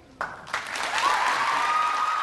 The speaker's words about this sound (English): While students at the assembly applauded